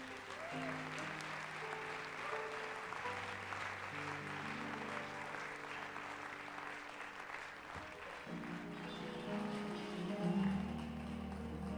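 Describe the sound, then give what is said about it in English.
An audience applauds as a dance group is welcomed to the stage, with steady dense clapping that runs the whole length over sustained musical tones. “So, if you don't mind, I would appreciate it if you put your hands together and welcome them to the stage.”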